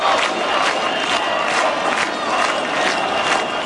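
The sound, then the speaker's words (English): A protest crowd at a nightly demonstration against a luxury resort development on Albania's Mediterranean coast, a dense continuous roar of voices with rhythmic pulses of chanting and shouting. “We're going to turn to Albania now and the country's Mediterranean coast, because plans for a huge new development of luxury properties and a holiday resort there have sparked nightly protests. We heard some of the sound of one of them there.”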